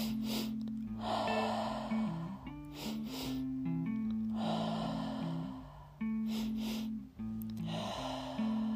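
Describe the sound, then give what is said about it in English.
Deep breaths in a guided breath-work pattern for boundaries: several long, rushing inhales and exhales repeat in a steady cycle over a continuous, sustained musical drone. “continue that triactive breath pattern”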